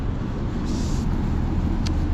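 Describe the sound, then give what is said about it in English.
Road traffic noise from cars stuck in a jam: a steady, dense rumble with no distinct events standing out. “Look at all these suckers stuck in traffic.”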